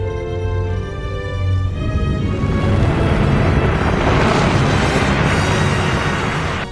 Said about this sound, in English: Pressure wave expansion is accelerating. Subsurface fusion has been initiated. An eruption is forming on the surface.